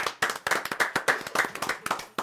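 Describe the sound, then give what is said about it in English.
Quick, sharp hand claps come in many distinct strikes with a loose, uneven rhythm, fairly soft, with no other sound prominent. “Clap it up”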